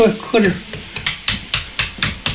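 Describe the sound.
A metal faucet nozzle is knocked against a table to shake out shell-like bits and grit from impurity-laden tap water, producing many sharp, clicky taps in a quick, steady series.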